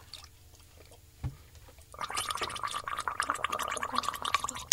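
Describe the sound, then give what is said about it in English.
Wet, bubbling gargling from a singer doing a gargle without singing. A soft low thump comes first, then dense, continuous throaty bubbling sets in and runs steadily to the end, with no voice over it. “what I'm going to demonstrate for you is the silent gargle. It just means gargling whilst not singing.”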